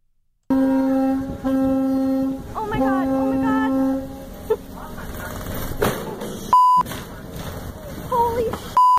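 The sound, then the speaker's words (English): A boat horn blares as a cabin cruiser collides with a Washington State ferry near Vashon Island: long, loud, low horn blasts, followed by rumbling noise and clatter. “That is the sound of the collision. That's a boat called Naptime colliding with a Washington State ferry on Sunday near Vashon Island.”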